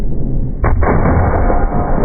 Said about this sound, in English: Okay, we're watching him. He's getting ready to shoot. Beautiful overcast day in the mountains.